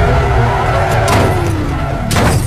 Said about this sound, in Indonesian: Mendadak, Ega mengerem mobilnya seperti yang kaget.